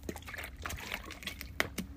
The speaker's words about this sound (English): excuse me, I'm going to have some water.